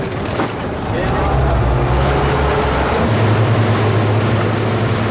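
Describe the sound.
A boat's motor runs steadily on a trip out to a coastal reef, a loud continuous low drone blended with rushing water and wind noise that stays even throughout.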